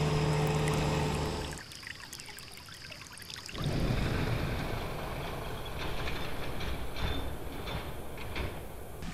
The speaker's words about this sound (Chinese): 水渠中的水缓缓注入稻田。